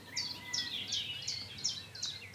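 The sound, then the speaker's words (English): Nightingales sing at dawn in Dorset: a steady run of bright, repeated high chirping phrases at an even rhythm, fairly faint over a low background hum. “a very strong population of nightingales, and they're hanging on, as you can hear”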